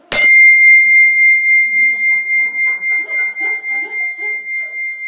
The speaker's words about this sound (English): When people ring the meditation bell for the first time in the group, they'll often go,